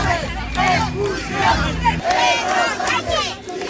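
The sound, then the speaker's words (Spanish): Protesters at a street protest in Seville chanting and shouting together as a loud, dense crowd, with voices rising and falling in steady waves throughout. “En directo desde Ceuta, sonido de la protesta en Sevilla”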